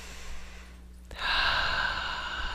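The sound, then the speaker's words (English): A deep breath taken during a spiritual activation webinar: near silence with a faint low hum, then a soft click about midway followed by a long, airy breath that carries on to the end. “Nice deep breath.”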